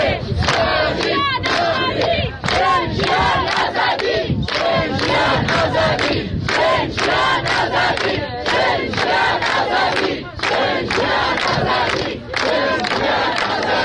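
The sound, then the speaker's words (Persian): A crowd chants slogans loudly and rhythmically at Mahsa Amini's grave in Aichi cemetery, Saqqez, gathered on Eid al-Fitr while security forces are present. Many voices shout in unison in a steady, repeated cadence that continues throughout. “این صدای سقز بود، آرامستان آیچی، مزار مهسا امینی.”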